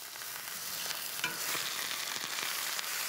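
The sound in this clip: A leg of meat sears hot in a pan outdoors, giving a steady, loud, crackling sizzle of frying fat that runs the whole time with no talk over it.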